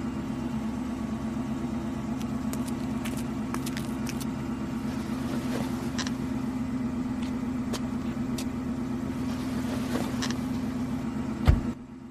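A car engine runs with a steady low rumble, with light jingling rattles over it and a single heavy thump near the end.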